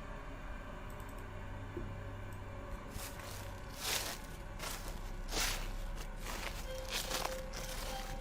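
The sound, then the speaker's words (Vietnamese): Footsteps trample through dry fallen leaves at night, giving a few irregular, soft crunching rustles over a steady low background hiss, quiet throughout. “Từ đấy vang lên những tiếng lá cây dẫm loạt xòa loạt xoạt.”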